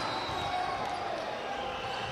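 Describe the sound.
Basketball dribbled during a game at the Palamangano arena, with repeated bounces against a steady, dense wash of background noise at an even loudness throughout.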